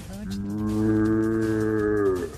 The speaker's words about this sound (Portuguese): Eu também sei tocar berrante, olha só.